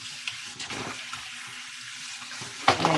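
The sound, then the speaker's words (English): Water running from a tap during washing up, a soft steady rush with a few small splashes and knocks, growing louder and splashier near the end. “So that's okay. We're going to wash up.”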